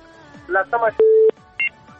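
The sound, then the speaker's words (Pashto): Touch-tone keypad beeps sound as a telephone number is dialed, a few electronic tones of differing length, with brief voice sounds mixed in among them. “یو شمېره به وټاکم.”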